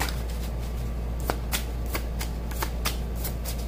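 Tarot cards shuffled for a reading, a run of many sharp, crisp riffling snaps at an uneven pace over a low steady hum, with no voices.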